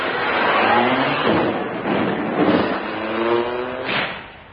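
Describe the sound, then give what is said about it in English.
A taxi drives off. A muffled, dull engine rumble swells and fades a few times, heard alone without voices. “Taxi, drive me to the House of Lords.”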